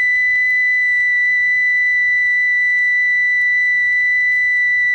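A high-pitched electronic test tone holds one steady, pure pitch at constant loudness for the whole clip, alone with no voices or other sounds.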